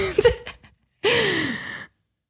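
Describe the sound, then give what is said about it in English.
Heavy breathing through an open mouth: a short, sharp burst of breath, then after a pause one long, loud, voiced exhale like a gasping sigh. “I breathed really heavily, but the no is flickering, but it might just be because I breathe with my whole mouth.”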